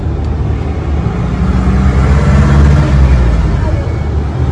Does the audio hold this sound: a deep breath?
no